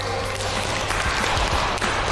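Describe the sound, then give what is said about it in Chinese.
Classroom applause for a group of students who won a small contest: a short burst of dense, steady clapping that fills the full two seconds at a moderate, even level. “来，掌声送给这一组。”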